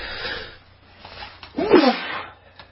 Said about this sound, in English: I'm sneezing in the background here. I apologize for that noise coming out.